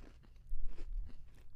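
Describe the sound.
A crisp bite into an Oreo sandwich cookie with strawberry and chocolate cream and a wafer that looks like a waffle cone. Brief, fairly quiet crunches and chewing last about a second and a half, with no talk.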